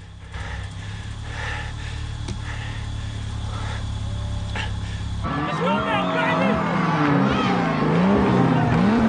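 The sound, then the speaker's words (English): A car overtakes, brakes hard and spins round during a street race. A steady engine drone runs through the first half, then abruptly gives way to harsher, wavering squeals and revving, with a voice heard over the top. “As Dom overtakes, Brian's face drops, and he slams on the brakes. He spins round, and smoke billows from the engine.”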